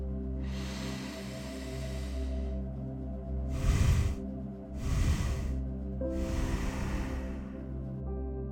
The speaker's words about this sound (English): We'll do this 10 times and then we'll reverse it to where it will be one inhale and then we'll break our exhale into three parts. So that will sound something like this.